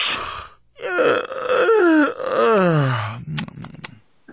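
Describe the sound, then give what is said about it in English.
A yawn: a drawn-out, voiced groan that slides steadily downward in pitch, followed by a few faint clicks and soft breaths. “He's just yawning.”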